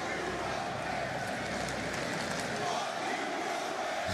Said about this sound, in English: Whoa, the crowd has turned. Nice. You got a fuck you Roman chant.